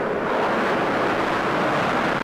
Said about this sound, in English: And it provides an ear-splitting show as one after another F-A-18 jet fighters are catapulted off the deck into the sky.